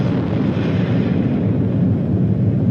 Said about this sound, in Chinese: 公元1964年10月16日15时，中国第一颗原子弹爆发出惊天动地的巨响。